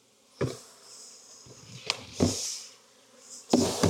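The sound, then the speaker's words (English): Honeybees buzz at an open long Langstroth hive, a soft, steady hum broken by several dull knocks and bumps, with no voices. “This is not as important a hive to me for booming because it's a Langstroth, long Langstroth hive.”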